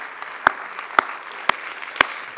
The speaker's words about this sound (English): Yes, that does deserve applause.